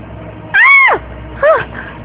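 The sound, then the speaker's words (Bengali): A cat meows twice. The first call is longer and falls in pitch, and the second is shorter, both sounding over a low, steady background hiss. “না না কেউ নেই, বিড়াল বিড়াল ভেঙেছে নিশ্চয়ই। হ্যাঁ বিড়ালই হবে।”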